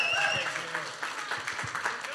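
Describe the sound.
A church audience applauds to welcome a pastor to the stage, giving a short burst of steady clapping with voices mixed in.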